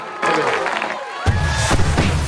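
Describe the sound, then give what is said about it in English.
Crowd cheering and applauding at an event as the lights go off, a loud, dense, continuous roar of clapping and shouting voices that swells partway through. “as the lights go off and people begin to applaud.”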